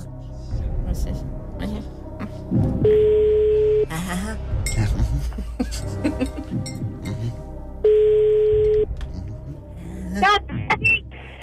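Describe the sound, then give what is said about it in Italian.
A phone call placed to a randomly chosen radio listener, with two long, steady electronic ring tones separated by lively talk from several voices, plus a few clinks. “E allora vi chiamiamo a caso. Sì. Un numero che ha interagito con noi dalle 7 fino a questo momento e voi dovete rispondere.”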